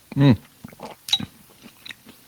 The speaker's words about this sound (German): Übrigens für die, die sich wundern, was hier für Geräusche um die Ecke kommen, ich schlabbere eine Suppe nebenher.